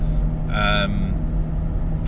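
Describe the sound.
A car driving, heard from inside: low, steady road and engine rumble throughout, with a brief voice partway through.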